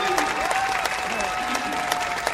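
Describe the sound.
A crowd applauding at a speaking event, with dense, steady clapping throughout and a voice talking over the applause.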